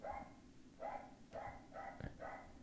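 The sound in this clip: A dog barks five times in a steady rhythm, each bark short and faint.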